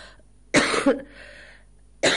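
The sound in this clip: Coughing from an itchy throat: a few harsh, raspy coughs come in short bursts with a fainter breathy rasp between them, heard alone without speech.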